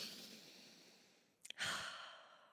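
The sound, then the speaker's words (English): A deep breath taken during a calming exercise: a long, airy exhale fades away, two small mouth clicks follow, then another full, breathy rush of air tapers off slowly. “Take a deep breath.”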